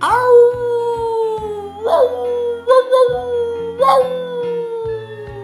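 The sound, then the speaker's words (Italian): An animal howls while giving chase: long, wavering howls with slowly falling pitch, broken by a few sharper yelping rises, loud and alone over a low steady backing. “si getta all'inseguimento, ululando da far spavento.”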